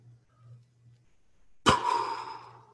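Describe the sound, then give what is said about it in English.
A single deep inhalation begins with a sharp onset and continues as a breathy rush lasting about a second. It is moderately loud and heard alone after near silence. “Take a deep breath.”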